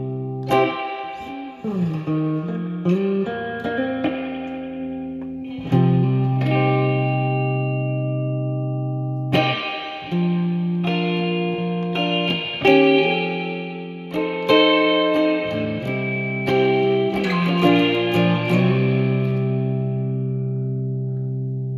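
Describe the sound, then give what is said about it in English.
An electric guitar played through a reverb effect: a slow run of plucked notes and chords, each ringing out and blurring into a long shimmering tail, in several phrases separated by brief dips, moderately loud with no voices. “So let's see if we can get some reverb here.”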